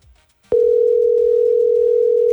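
A telephone dial tone cuts in abruptly after a short, quiet lead-in, then holds one loud, steady pitch without a break.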